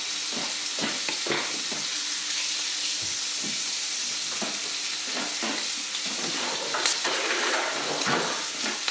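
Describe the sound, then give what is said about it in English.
Bacon frying in a pan gives a constant bright sizzle and hiss, broken by repeated scraping and tapping as it is turned and stirred. “Right, so turn the bacon all the time, keep it going.”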